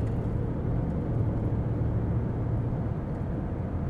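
Low, even road and engine rumble fills the inside of a moving car, a dense steady drone with no clear shifts in pitch and no voices.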